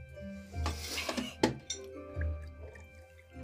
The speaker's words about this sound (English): She pours a little more in her glass again.